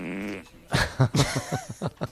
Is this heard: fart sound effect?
yes